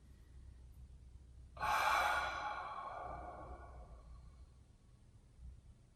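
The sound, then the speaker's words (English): A deep breath taken in through the nose and let out fully through the mouth with an open 'ah', as part of a relaxation exercise. One breathy sigh starts abruptly and fades gradually over about two seconds. “Conclude with one big inhale through your nose and full exhale through your mouth with an ah.”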